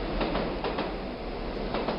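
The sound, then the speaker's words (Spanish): Subway trains rumble beneath a busy city street intersection in a steady, loud roar, overlaid with repeated rhythmic clacks of wheels on rails. “Por ejemplo, abajo pasan los trenes, el subterráneo.”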